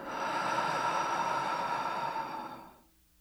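A slow, deep breath taken during a guided relaxation exercise, heard as one long, steady, airy rush lasting about three seconds before it fades out, alone and with no talk.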